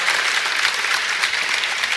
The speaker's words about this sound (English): Yeah, give yourself a round of applause.